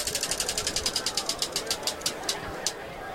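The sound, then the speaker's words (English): A Dick's Sporting Goods prize wheel of questions spins and ticks. Many rapid, bright clicks come fast at first, then slow and space out until the last few taps stop. “We're going to have you spin the Dick's Sporting Goods wheel of questions. We got a lot of tough questions here. So give that thing a whirl, and we'll put you on the spot here.”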